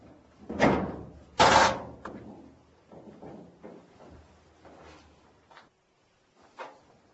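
The front door of a house is opened with two loud clunks, then softer knocks and rattles that fade to near silence, with one last faint thud.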